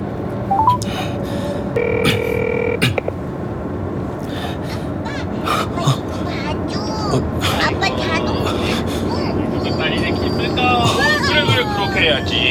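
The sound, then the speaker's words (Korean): Short electronic phone-dialing tones as a navigation voice assistant places a call. A brief two-tone burst sounds early, and dense babble and steady background noise run throughout. “동윤이한테 전화 걸어줘. 네, 동윤이에게 전화를 걸겠습니다.”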